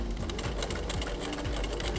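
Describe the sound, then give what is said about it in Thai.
A sewing machine stitches a small fabric piece along its top and bottom edges: a steady, loud mechanical whir with a rapid, even stitching rhythm throughout, and no voices. “เดี๋ยวเราเริ่มเย็บกันเลยจับได้ไว้นิดนึงแล้วก็เย็บอีกด้านล่างนะคะ”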